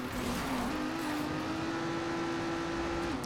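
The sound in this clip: A racing car engine revs in the Trackmania racing video game. It is a steady, faint engine drone whose pitch steps up slightly early on and holds level before dropping off at the end, with no voices.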